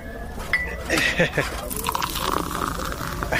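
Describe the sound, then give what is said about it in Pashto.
A cup of tea is poured with light clinks of crockery and a thin liquid trickle, the clinks bunched near the start and the pour continuing faintly under people talking. “ته صبر چې یوه پیاله چای درته واچوم چې ستړی شوی به.”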